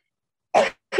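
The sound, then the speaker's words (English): A person coughs twice in quick succession with something held over the mouth. The two short, muffled bursts are about half a second apart, with silence before them. “I put this over my mouth intentionally, but I do have to cough.”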